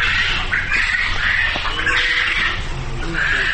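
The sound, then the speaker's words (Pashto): Many birds squawking at a poultry farm raising birds for meat, a dense, loud, continuous chorus of harsh calls with no pause. “خبرې د مړز په غږ پیلېږي.”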